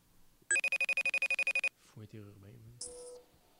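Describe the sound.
Electronic telephone ringing of a call to a guest comes as a rapid string of about a dozen sharp, high pulses, followed by a brief stretch of talk and a short final tone.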